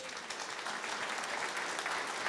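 Applause from an audience at a stage competition event, a dense, steady wash of many hands clapping at an even level for the whole stretch, with no voices over it.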